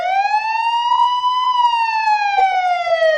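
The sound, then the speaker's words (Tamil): An emergency vehicle siren wails loudly and alone as one sustained tone that rises gently, then falls over about three seconds. “இந்த மாதிரி siren சத்தம் கேட்டா என்ன பண்ணுவீங்க?”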